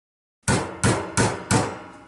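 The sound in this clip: A hammer drives a nail into wood with four sharp, evenly spaced blows. Each strike rings briefly and fades before the next.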